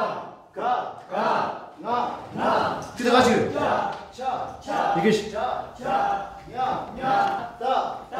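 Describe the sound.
Rapped vocals reciting the Tibetan alphabet, delivered as short, regular chanted phrases with a steady rhythmic pulse from start to end.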